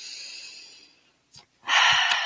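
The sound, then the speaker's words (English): A deep breath taken before pulling a tarot card: a quieter airy hiss, a brief faint breath sound, then a loud, breathy rush of air near the end, with no talk. “So I'm just going to take a deep breath here.”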